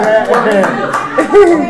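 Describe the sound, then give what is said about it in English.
Soft hand clapping from a baby clapping for herself after a correct answer, a few light claps heard under continuous talk. “The baby, clap for yourself again. Clap for yourself.”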